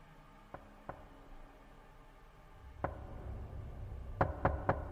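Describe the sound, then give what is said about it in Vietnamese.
Knocking on a door that opens onto a dark hallway: faint, sharp raps spaced out at first, ending in a quick run of three knocks over a low, steady background hum. “Đóng cửa lại, đang định quay vào, thì một lần nữa tiếng gõ cửa lại vang lên.”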